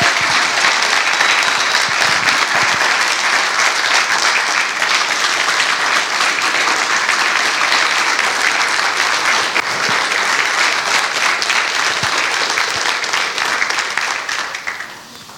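A church audience claps to welcome a guest onto the stage, a loud, dense and continuous wash of applause that holds steady for the whole stretch before tapering off at the very end.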